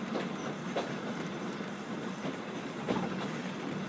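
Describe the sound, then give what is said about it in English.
Inside a moving train, a steady rumbling hiss of the carriage in motion with a few faint clicks from the wheels, continuous and fairly quiet with no voices. “I find it easier when going backwards, because when the train stops in stations, you don't get thrown forward.”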